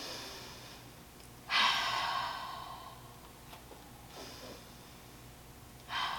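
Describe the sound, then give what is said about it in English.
Deep breaths during a vocal warm-up, in through the nose and out through the mouth, heard as a loud, airy whoosh that fades slowly, then a softer breath and another strong one at the end, over quiet background. “We always like to start with a nice deep breath through the nose and out the mouth. So here we go.”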